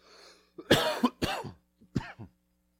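A few harsh human coughs come in a short, irregular run, each a loud rough burst, heard alone with no talk.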